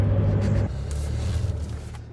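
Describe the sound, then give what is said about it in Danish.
Car engine and road rumble heard from a vehicle driving through city streets: a steady, low droning hum with no talk. The level eases slightly partway through. “nu, mens vi lige kører her på vej mod Nørrebro, lige ved Nordvest og Bispebjerg station”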